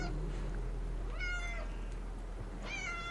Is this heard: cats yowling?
yes